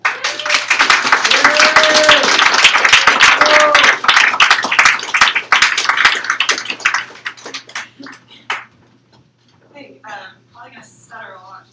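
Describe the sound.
An audience at a poetry reading applauds to welcome a first-time reader. Dense, steady clapping lasts about seven seconds, thins to scattered claps, and then a voice begins speaking.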